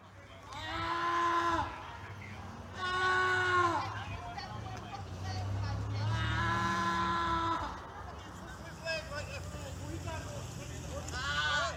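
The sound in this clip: A 25-year-old man cries out while lying on a Baltimore sidewalk, pinned down by two police officers: several long, strained, wavering wails rise above a murmur of background voices, with quieter stretches between them.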